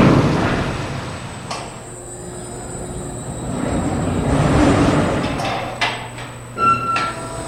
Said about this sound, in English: Basically, what you just saw there is the entire parking process take place. The elevator gets lowered down with the vehicle on it. The pallet gets transferred from the elevator onto the main storage retrieval unit I was describing